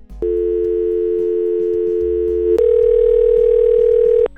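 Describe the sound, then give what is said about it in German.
Steady electronic telephone tone heard while placing a call: one unbroken tone holds for about two seconds, then shifts abruptly to a slightly higher steady tone that runs almost to the end. There are no voices. “Ich rufe einen Kandidat von den Golden April Awards an. Okay, komm schon.”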